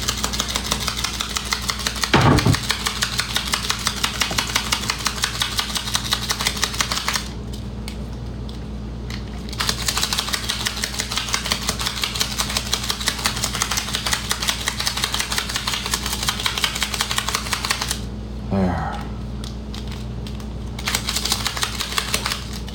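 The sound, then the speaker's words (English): Food and sugar rattling quickly as they are shaken together in a closed container. The loud, rhythmic patter continues with two short pauses, over a steady low hum, and no one speaks. “Grab some sugar for this. There. Now we can just put those together and shake them.”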